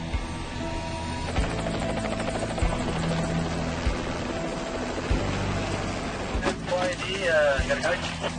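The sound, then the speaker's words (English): Helicopter hovering during a hoist operation, its rotor making a steady, loud droning whir with a buzzing engine hum throughout, while people talk over it. “Now the chopper is ready for the final and most crucial part of the job, the hoist.”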